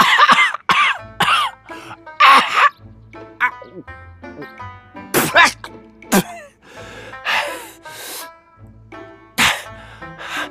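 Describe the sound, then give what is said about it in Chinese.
Voice-performed coughing of a man choking on a whole betel nut: many harsh, loud coughs in uneven bursts, mixed with throat clearing and strained gasping vocal sounds between them. “整颗槟榔都滑进了喉咙里，他咳嗽了半天，急得满头是汗，最后好不容易才将那槟榔给吐了出来。”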